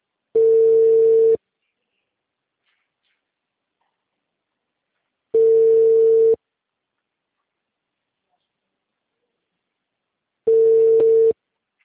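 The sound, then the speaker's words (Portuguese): A telephone ringback tone plays on an outgoing call to a client that goes unanswered: three steady, mid-pitched tones about a second long, separated by roughly four seconds of silence. “Ó, esse aqui o meu cliente está chamando, tá? Só que ele não está atendendo.”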